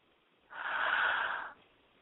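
One deep breath, drawn as a steady, airy whoosh that lasts about a second and then stops, with nothing else heard.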